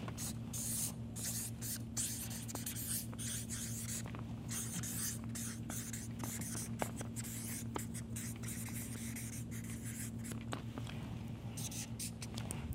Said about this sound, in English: Let me just first write delayed gratification.